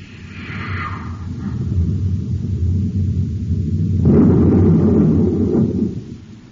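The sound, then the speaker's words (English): A space torpedo launches and explodes in a science-fiction setting: a low, swelling rumble builds for a few seconds, then a sudden loud, broad explosive roar bursts out and slowly subsides. “Stand by to fire space torpedo.”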